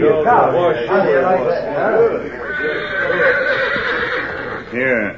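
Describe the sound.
A horse neighs loudly in a shaky, wavering whinny at the start, then snorts and breathes, and gives a second short whinny near the end.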